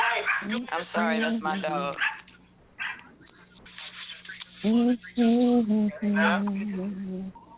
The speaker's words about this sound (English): Well, I'm sorry, that's my dog.